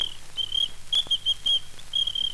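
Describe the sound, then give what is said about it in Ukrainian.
A small ladies' whistle used by a traffic officer on female offenders, blown in many short, thin, high-pitched chirps at an irregular rhythm over a faint low hum. “А якщо вже нарушає правила уличного движення не гражданин, а гражданочка, так я їй сюди не свистів. У мене для неї був дамський свисточок.”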